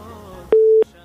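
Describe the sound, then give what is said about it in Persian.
A single steady mid-pitched telephone tone, lasting about a third of a second, sounds as a caller's line is connected, starting and stopping abruptly. “میریم تماس بعدی را وصل میسازیم، ببینیم کدام عزیز ما هست، از کجا تماس گرفته.”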